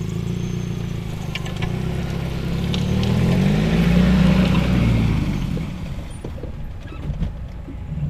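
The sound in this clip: Steady engine and tyre rumble from a car driving along a road through Marlborough vineyards, a low continuous drone that swells slightly around the middle and then eases, with no voices.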